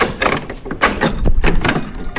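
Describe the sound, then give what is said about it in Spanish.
Clunks and scrapes of an old church door, fitted with an old-fashioned key, being pushed shut: a few sharp knocks and rattles in quick succession, loud and close, with no talk. “¿la cierre? Mari, la puerta de la iglesia todavía tiene llave de las de antes, ¿no?”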